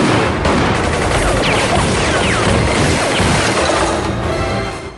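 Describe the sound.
Gunfire and explosions as a building is bombed: a loud, unbroken wall of crackling shots and blasts with thin whistling streaks over it, holding steady before easing slightly at the very end.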